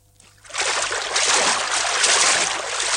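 Water splashes and rushes as a fully clothed man wades into a river with a rifle slung over his shoulder. It starts quietly, then swells abruptly into a loud, steady wash that lasts to the end.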